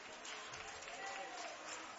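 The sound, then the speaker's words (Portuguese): A church audience applauds to welcome a singer, a dense, continuous wash of clapping that stays steady throughout, fairly faint and muffled. “Podem você assentar aplaudindo ao Senhor, bem alegre, bem forte. Cantor Ivan Luiz, vamos louvar ao Senhor. Recebamos o servo do Senhor com palmas. Mais alegres, mais alegres.”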